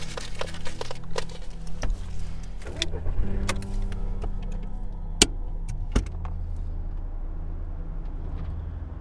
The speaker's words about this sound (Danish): Okay, vi kører ud til Lissabon. Lad os gøre det, ja.